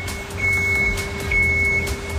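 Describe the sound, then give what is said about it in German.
An ice resurfacing machine driving on a rink, planing the ice with a sharp blade underneath, gives a steady low engine rumble with two high electronic beeps sounding over it. “So, Andi, ich bin ja schnell bei dir mit auf die Eismaschine gesprungen. Was genau macht denn diese Eismaschine jetzt hier?”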